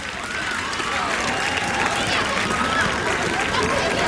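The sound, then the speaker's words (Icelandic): Steady memorial applause from a crowd honoring the late Gunnar Þórðarson, a dense unbroken wash of clapping that holds an even level throughout, with crowd voices mixed in. “ég ætla að biðja ykkur að klappa í eina mínútu í minningu Gunnars Þórðarsonar. Klöppum fyrir Gunnari Þórðarsinni og hans minningu.”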